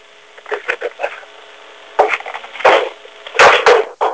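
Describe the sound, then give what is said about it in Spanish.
A water bottle falling, heard as a few dull clattering knocks and rattles: soft scattered taps at first, then louder hollow bumps and a final burst near the end, with no voices. “Pues se cayó ahí una botella de agua, ¿verdad?”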